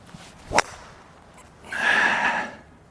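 A golf club swing at the tee gives one sharp crack followed by a broad rushing whoosh lasting about a second, moderately loud over faint background noise.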